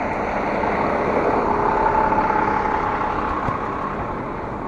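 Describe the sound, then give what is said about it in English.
A garbage truck idling on a city street, its engine giving a low, continuous rumbling drone that holds at an even level throughout, with no clear bursts or changes. “garbage truck there”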